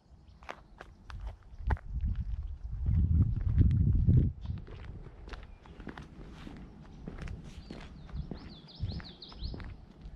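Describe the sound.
Footsteps of people walking: steady, scuffing steps in an uneven rhythm, heavier and louder for a stretch partway through, with faint chirping near the end.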